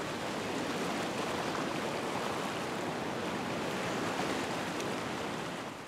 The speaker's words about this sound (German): Schwimmen wie in einer riesigen Badewanne. Und sogar mit Wellengang.